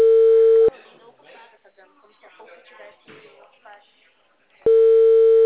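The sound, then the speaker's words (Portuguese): Telephone busy signal, a loud steady tone that cuts off, gives way to people talking, then returns unchanged at the end. “Não, porque quando aparece essa, tipo assim, essa linha ocupada logo no começo, já quer dizer que a pessoa colocou no spam.”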